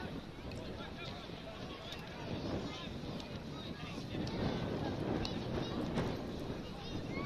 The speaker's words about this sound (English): The wind has had varying degrees of strength, but it is starting to really go now, huh? Been constantly going.